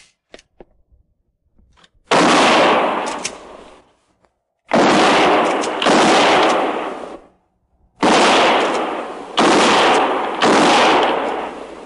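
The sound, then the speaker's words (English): Rifle gunfire aimed between trees: six loud blasts, each trailing a long decaying roar, arrive as a single shot, then a pair, then a trio, with short silences between the groups. “And no more than 3 rounds each. Fire between the trees.”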